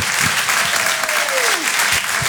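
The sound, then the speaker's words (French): Audience applause at a stand-up comedy show: dense, steady clapping that stays loud and even throughout, with a brief vocal whoop rising above the crowd partway through. “On peut l'applaudir très très fort également, Sandrine Saroche, pour Rire et Chanson.”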